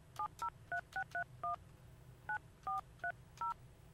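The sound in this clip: Telephone keypad dialing tones for an outgoing call: ten crisp beeps, six in quick succession, a short pause, then four more, clear over a faint hiss.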